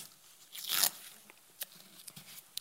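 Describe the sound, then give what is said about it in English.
Painter's tape is torn from the roll and pressed down, making one short rasping burst followed by a few faint ticks and taps. The sounds are quiet overall. “I have a piece of tape here, some painter's tape, and I think this illustration is going to help us a little bit. So I'm going to put a piece of tape right here.”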